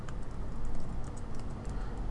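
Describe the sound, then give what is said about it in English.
Keys click on a computer keyboard in quick, uneven bursts of typing. The taps are light and fairly soft and continue throughout. “I'm just going to type it in.”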